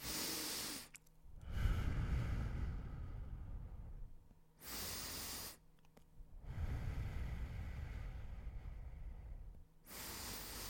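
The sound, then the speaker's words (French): Slow, deep breaths taken with eyes closed, each a long airy rush of inhaling or exhaling alternating with shorter, sharper hissing bursts, repeating a few times with no talk. “j'ai les yeux fermés, j'ai pris quelques respirations”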